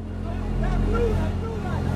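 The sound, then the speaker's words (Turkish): Motorboat engine from a migrant boat that is taking on water, with a child on the motor: a steady, low droning hum that runs throughout, with voices talking over it. “Durun! İnsan kaçakçıları küçük bir kızı kalkan olarak kullanıyor. Motorun üstünde bir çocuk var.”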